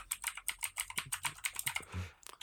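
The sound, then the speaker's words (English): Rapid typing on a computer keyboard: many quick, evenly spaced keystrokes clatter alone with no voices, broken near the end by one duller, heavier thump before a few lighter taps. “I just type in Richard Harrison into Google.”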